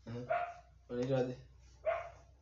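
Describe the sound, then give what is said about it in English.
A dog barks a few times in short, loud, tonal bursts separated by brief pauses, with low background noise between them. “Sorry for the dog.”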